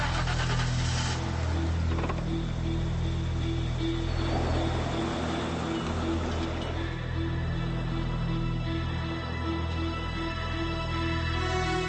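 A car drives along with a steady low engine drone and continuous road hiss, holding an even loudness with no clear gear changes or revving.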